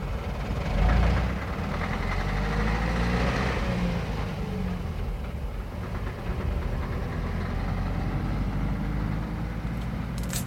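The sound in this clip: Vehicle engines in a convoy setting off on a road, a steady, heavy low rumble and knocking drone that runs throughout with only slight swells, with no voices.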